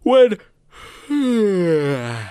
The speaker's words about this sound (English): when you're yawning, you cannot help but breathe in and out. I'm genuinely yawning right now.